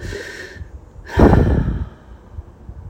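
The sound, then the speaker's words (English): A long, deep breath: a soft, airy inhale followed after a pause by a fuller, louder exhale that slowly fades, with no talking. “Always start with a long, deep breath.”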